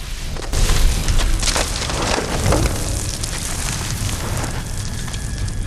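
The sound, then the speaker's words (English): Roaring, crackling fire consumes a character's body, burning it to a skeleton before it crumbles into ash. A deep boom swells early, then a dense, steady rush of crackle continues to the end. “He gives a faint, melancholic smile as fire consumes his body. His skin burns away to reveal his skeleton. Then he disintegrates into a pile of ash.”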